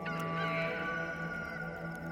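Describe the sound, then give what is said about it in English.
A rooster crows in one long, drawn-out call. The harmonic, nasal cry holds at a steady level for about two seconds. “A second time, the rooster crowed.”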